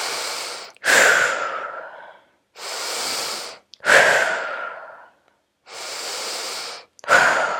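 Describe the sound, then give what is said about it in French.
Three brisk, toning breath cycles taken to close a relaxation exercise, each a smooth drawn-in inhale followed by a sharper, forceful exhale, loud and evenly spaced with no talking. “Je te conseille de prendre trois respirations un petit peu toniques.”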